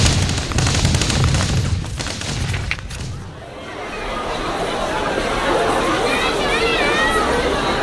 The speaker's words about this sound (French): Approvisionnez, bordel ! Approvisionnez, merde ! Francis s'est pris une balle en plein cœur. Il s'effondre.